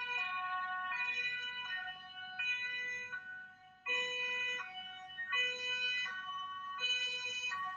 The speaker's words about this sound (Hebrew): ברגע שהאמבולנס עבר אותנו, פתאום הדברים נשמעו אחרת.